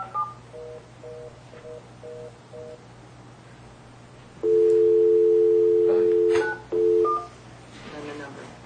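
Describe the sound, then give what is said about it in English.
Telephone dialing tones: five short, evenly spaced touch-tone beeps, then a loud, long steady dual tone and one shorter tone after a brief gap. “Oh, it shows it's dialing.”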